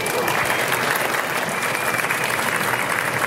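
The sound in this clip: Audience applause welcomes guests onto the stage at a live investing event, a dense, steady wash of many hands clapping that holds loud and even throughout.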